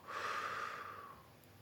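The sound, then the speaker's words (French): One slow, deep breath drawn during a guided relaxation exercise. It is a faint, airy rush that swells quickly and then fades gradually. “Je vous invite à présent à prendre une grande inspiration par le nez et à souffler par la bouche.”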